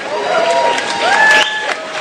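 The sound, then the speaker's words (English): Crowd applause and cheering at a running event in St. Pete, a dense roar of clapping with raised voices over it, loud and steady throughout. “First off, the city of St. Pete, let's give a big round of applause to them for being so involved.”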